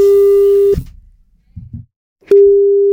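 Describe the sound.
Telephone ringback tone of an outgoing call to Makueni County, Kenya: a steady single-pitched tone that cuts off, leaves a gap with faint low noises, then sounds again.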